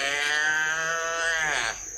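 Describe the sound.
A calf bawls on a cattle farm in one loud, drawn-out harmonic call that lasts nearly two seconds before it cuts off.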